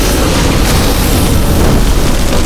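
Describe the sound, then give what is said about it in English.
Flamethrower fire igniting fuel leaking from a tank implanted in a monstrous creature, as an audio drama effect: a loud, dense, continuous roaring whoosh that stays steady from start to finish. “Unaware of the fuel now leaking down its body from the implanted tank, the monstrosity hit the flamer again.”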